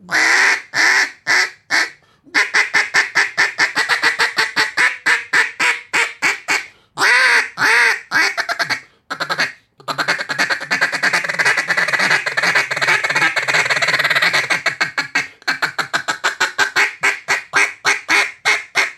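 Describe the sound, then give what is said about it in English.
A hand-blown duck call gives many loud, nasal quacks in rhythmic runs, some quick and clipped, others drawn out, broken by brief pauses, with no speech over them. “the best duck callers in the world are barely moving their fingers at all.”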